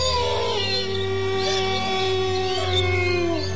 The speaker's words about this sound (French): Mais c'est pas des rats, c'est des loups